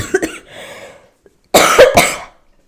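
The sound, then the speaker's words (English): Harsh coughing: a brief fainter bout, then a louder cluster of a few raspy, forceful hacks in quick succession, with no talk. “I'm leaving that cough in because that literally was a prime example. Like that cough happened and then my recording just like stopped”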